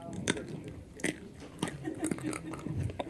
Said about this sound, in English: Okay, let's try it with an almond, because supposedly these are unroasted, unsalted.